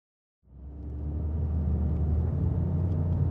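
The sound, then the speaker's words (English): Steady low engine and road rumble of a car driving through a small-town neighborhood near downtown Mapleshade. The rumble starts after a brief moment of silence and then holds constant and even, with no talk. “I've come to Mapleshade with reporter Betsy Shepherd. We're driving through a neighborhood near downtown.”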